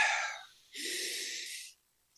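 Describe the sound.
Deep breaths taken during a calming exercise for anxiety: a soft breathy rush fades out, then after a short pause a fuller, steady breath lasts about a second before stopping cleanly.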